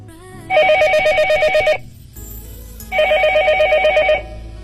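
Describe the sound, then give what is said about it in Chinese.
A telephone rings for an incoming listener call, two long, bright, trilling bursts with a short gap between them, loud and clear with no voices over them. “下面我们将接听第一位听众的来电，听他与我们分享他的武侠世界。”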